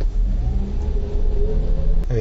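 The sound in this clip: A car's engine pulls away from a traffic light once the signal changes, giving a low, steady droning hum with talk heard over it.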